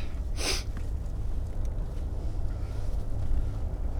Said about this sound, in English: hopefully we're not going to be too noisy in the car, but probably will be a little bit today. I got junk rolling around the back, unfortunately. Something that sounds like a squeaky mouse.